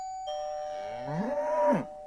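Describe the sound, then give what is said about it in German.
A cow gives a single drawn-out moo that rises and then falls in pitch, heard over a steady ringing tone that starts shortly before it and continues after. “eine Kuh kommt zu Besuch.”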